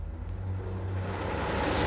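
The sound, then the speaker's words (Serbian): A bus crawls through a sleepy town at dawn over broken cobblestones, its engine a steady low rumble that swells slightly louder toward the end, with no voices. “Autobus i nezdravo svitanje evo najzad zajedno puze kroz još usnulu varoš.”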